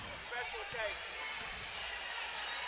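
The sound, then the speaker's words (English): A basketball is dribbled on a court during a game, bouncing in a steady rhythm of dull thuds. A constant crowd murmur and voices sit underneath. “Here is Gilbert with it, dribbling on the left wing.”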